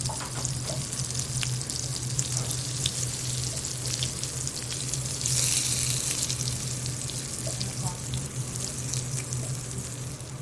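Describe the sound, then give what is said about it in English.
Squash frying in cold butter in a cast iron pan gives a soft, continuous sizzling hiss over a low steady hum, swelling a little partway through. “you go in with the cold butter in the pan and go right in with your squash.”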